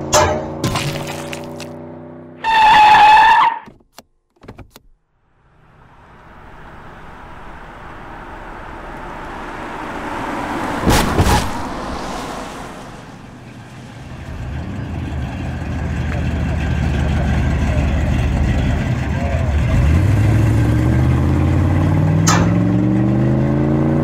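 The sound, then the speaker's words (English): A car drives along a road: a steady engine rumble that swells over time and revs up toward the end, with a few brief louder knocks early on. “Yeah, I've been driving for a while and I'm getting kind of tired. Oh, hold on a second, there's one of those little Jawa dudes in the road.”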